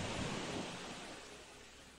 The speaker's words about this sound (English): maybe you can hear the sound of the waves behind me.